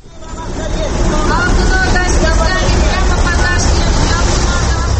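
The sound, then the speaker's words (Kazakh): Chinese buses idle and pass at a busy bus stop at the intersection of Tole bi and Furmanov streets, giving a loud, continuous engine rumble and traffic noise under a murmur of voices. “Қазірмен Төле би мен Фурманов көшесінің қиылысындағы аялдамада тұрмын. Бұл жерге басқа көліктермен қатар Қытай автобустары да тоқтайды екен.”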